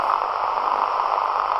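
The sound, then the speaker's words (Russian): Steady radio static hisses from an R326M receiver tuned near 21.60 MHz with its antenna disconnected: a dense, even, unbroken wash of noise at constant loudness from start to finish. “Шум без антенны. Ну, в смысле, с отключенной антенной.”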